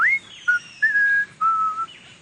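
A person whistles a short phrase of four notes. The first note slides upward, and the last two are longer held tones, clear and alone.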